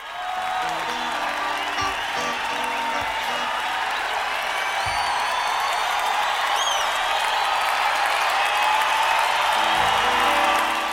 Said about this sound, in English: But in at the Garden, when the lights went down, and as soon as people could see the outline of Garcia, it was pandemonium. The place actually shook.